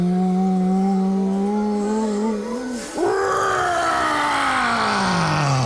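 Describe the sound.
A voice imitates a dragon breathing fire, holding a low, strained groaning tone that briefly dips, then breaking into a rough, roaring, hissing exhale that gradually fades.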